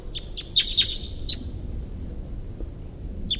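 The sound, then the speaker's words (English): A wild bird calling with several short, high-pitched chirps, some in quick pairs, over a low, steady background rumble. “Headed in the direction of the wild bird here.”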